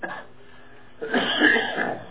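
Coughing and clearing phlegm from the throat: a brief cough, then a louder, rough, gurgling throat-clear lasting about a second.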